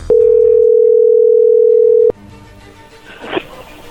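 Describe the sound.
A telephone dial tone sounds as a call is placed: a loud, steady single-pitch hum that lasts about two seconds, then cuts off abruptly and leaves faint background noise.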